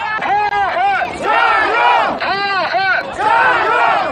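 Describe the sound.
A football crowd at a Xinjiang Football Super League match shouts jiayou in loud, strained bursts, the voices almost cracking. The chant comes in a repeated, rhythmic pattern of forceful phrases with short gaps between them.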